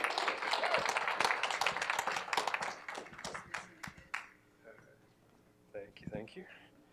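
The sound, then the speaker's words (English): Audience applause welcoming a speaker forward at a morning gathering: dense, loud clapping that thins out after about three seconds into scattered claps, with a voice speaking as it ends. “But I'd like to welcome Caleb forward and give him a warm hand.”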